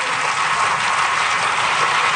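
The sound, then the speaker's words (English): Sustained applause from lawmakers in France's National Assembly after a unanimous vote, a dense, steady wash of clapping at even loudness throughout. “Applause breaking out in the National Assembly after lawmakers voted unanimously to repeal the Code Noir, or the Black Code.”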